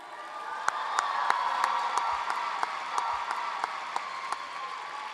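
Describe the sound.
Audience applause for a poet after scores are read at a poetry slam, a steady wash of clapping with a few sharp, distinct claps popping out at fairly regular intervals.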